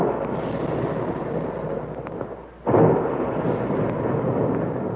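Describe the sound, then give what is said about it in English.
Big guns fire in a booming explosion effect evoking cereal grains of wheat and rice shot from guns: a deep, continuous rumbling roar fades briefly, then breaks into a sudden loud boom before rumbling on, with no voices. “And there go the big guns, reminding us all that puffed wheat and puffed rice actually are shot from guns right in the Quaker plant.”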